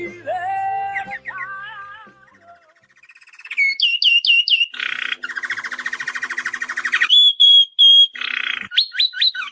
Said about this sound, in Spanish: Y con esta introducción de los trinos de los pájaros, una introducción muy primaveral